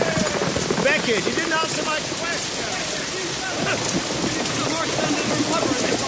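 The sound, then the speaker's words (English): Heavy rain pours as a storm builds, a dense, steady hiss of pattering drops filling the whole stretch at an even, moderate level. “The rain is getting heavier, my lord.”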